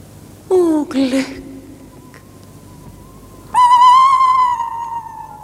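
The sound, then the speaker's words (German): An owl calls in a German radio drama of an ancient Greek tragedy: a short, loud, falling two-part cry, then after a pause a longer, steadier, higher drawn-out call. “Furchtbar ist dieser Eulenruf.”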